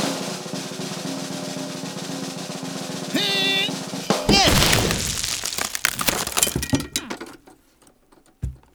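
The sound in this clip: A wooden Fastelavn barrel being struck and breaking apart: a sudden loud crack near the middle, followed by scattered cracking and clattering debris, then one final thump at the end.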